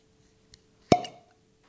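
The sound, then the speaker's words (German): A single sharp pop as a bottle is opened, followed by a brief hissing decay, with a faint tick just before it. “Das war schon amtlich. Gutes Ploppen. Gutes Ploppen. Ja, nicht schlecht. Der Sommer ist da und wir machen eine neue Flasche auf.”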